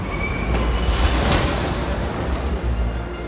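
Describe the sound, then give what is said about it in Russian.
Screeching brakes from a car swerving into a bus during a chase: one high, thin squeal that drifts slightly lower in pitch over a loud, broad rumble of noise. “Тот выхватывает его, отбиваясь одной рукой от норовящего задушить его Скрула, выкручивает руль, и машина врезается в автобус. Визг тормозов, и погоне конец.”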